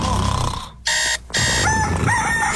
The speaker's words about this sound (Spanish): Oiga, pero hasta el gallo le canta, oiga, y no se despierta, ¿eh?